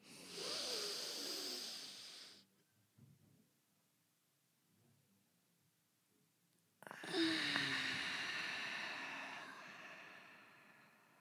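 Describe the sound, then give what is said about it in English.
Deep breathing exercise: a long, breathy inhale, then several seconds of near silence while the breath is held, followed by a long, slowly fading exhale, all fairly soft. “let's do a deep inhale and we'll hold it at the top.”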